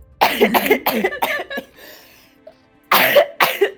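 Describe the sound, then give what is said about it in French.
Repeated real coughing from a person during a tabletop role-playing game session: a rapid cluster of harsh, throaty coughs, a short quiet pause, then a few more loud coughs. “Le pire, c'est que j'arrête pas de tousser IRL, donc c'est génial pour le RP.”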